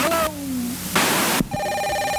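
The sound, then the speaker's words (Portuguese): A 1970s intercom ringing with a steady, loud electronic ring. A brief harsh, noisy burst breaks the ring midway before the tone resumes. “Isso aí é um interfone nos anos 70.”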